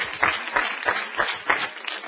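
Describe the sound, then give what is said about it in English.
Church audience clapping in unison: steady, rhythmic group claps landing on an even beat, about six strong claps in quick succession. “Now let's clap my hands unto the Lord. Hallelujah.”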